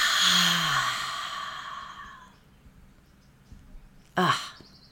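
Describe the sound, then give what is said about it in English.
A deep breath released in a long, breathy sighing exhale during a guided breathing exercise, loud at first and fading away over about two seconds, followed by quiet. “So let's do that again. Let's take a nice deep breath in. And release.”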